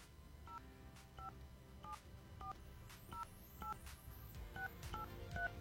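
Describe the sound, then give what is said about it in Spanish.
A telephone number is dialed on a touch-tone keypad: a quick run of short, evenly spaced dual-tone beeps over a low background hum. “Ahí estamos marcando, perfecto. A ver si nos contesta”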